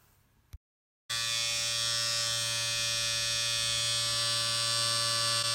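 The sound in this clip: Electric hair clippers cutting long hair: a faint noise, a brief silence, then the clippers switch on into a loud, steady, continuous buzzing hum that holds evenly to the end.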